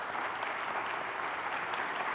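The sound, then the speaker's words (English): Congregation at Bethany Place applauding its students, a steady, even wash of many hands clapping with no pauses. “And I want to applaud them for the great job that they have done.”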